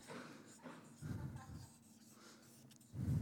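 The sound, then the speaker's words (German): Pencil scratching on paper while drawing palm trees: soft, irregular strokes, fairly faint, with a few heavier rubbing bursts. “Ich probiere jetzt hier Palmen zu zeichnen.”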